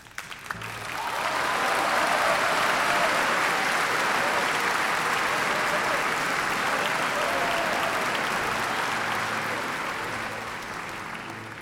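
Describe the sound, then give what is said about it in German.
Thunderous applause fills an opera house, swelling in within the first second into a dense, loud roar of many clapping hands that holds steady for several seconds before tapering slightly near the end. “Der Auftritt der Carlotta im dritten Akt wurde wieder von donnerndem Applaus begleitet.”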